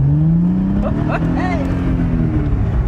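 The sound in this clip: A sports car engine revs as it drives off, giving a steady, loud droning hum with a slight rise in pitch, while voices talk over it.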